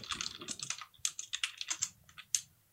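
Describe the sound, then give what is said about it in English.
Typing on a computer keyboard: many quick, crisp keystrokes in an irregular rhythm of clustered taps and short pauses, with a few sharper, louder clicks standing out near the end. “he also says everything that he's going to type before he types it, then types it”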